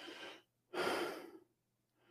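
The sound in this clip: A voice imitates the gasping breath of a person suffocating while hanging by the hands: a short breath, then a longer, louder strained gasp, and a faint breath beginning at the end.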